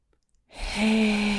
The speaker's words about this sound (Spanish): Vamos a comenzar tomando tres respiraciones largas, lentas y profundas por la nariz inflando el estómago. Inhala.